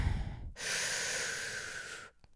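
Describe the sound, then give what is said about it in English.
One deep breath drawn in during a calming breathing exercise: a steady, airy rush of air lasting about one and a half seconds begins abruptly after a brief quiet moment and then stops, soft and alone. “let's take a nice deep breath in.”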